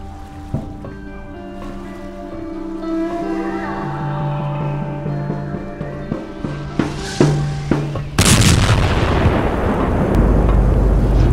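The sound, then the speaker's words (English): A cannon shot strikes a naval warship on its port side, a sudden loud explosive impact that bursts in after a stretch of tense music and leaves a heavy rumbling roar to the end. “Did anyone see where that shot came from? Port side, sir. It sounded like a direct hit.”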